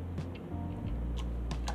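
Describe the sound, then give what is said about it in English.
Typing on a computer keyboard: a handful of light, irregular key clicks tapping over a steady low hum, with no voices. “But I will type this in”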